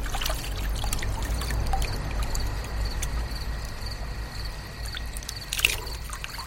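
Water pours and trickles steadily as someone washes their hands and face, a continuous splashing flow with one brief louder splash near the end.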